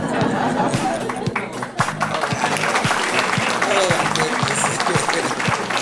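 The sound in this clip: Studio applause played from a sound-effect button: dense, steady clapping from a crowd that runs the whole time, with some crowd noise mixed in.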